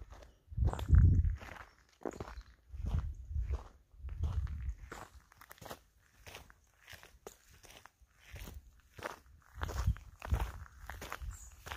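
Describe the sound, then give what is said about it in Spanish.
Footsteps walking on a mountain trail in the Galician hills along the Camino de Santiago, a steady rhythm of many soft crunching steps, fairly quiet and alone without talk. “seguir caminando y sí, ir hablando contigo para que tú también disfrutes pues de este paseo.”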